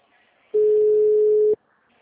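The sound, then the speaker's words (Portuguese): A telephone ringing tone heard while a call is placed: one steady, mid-pitched beep lasting about a second, clear and alone, with near silence before and after. “Ah, tá chamando.”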